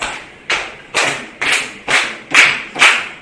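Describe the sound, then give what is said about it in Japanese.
Audience clapping in unison along to foot stomping at a late-night event: sharp, even claps with dull thuds land at a steady beat about every half second, each burst fading quickly before the next. “皆さん足踏みに合わせて手拍子、”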